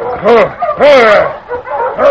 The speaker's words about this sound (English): Stranger, those dogs look like they had a hard pull.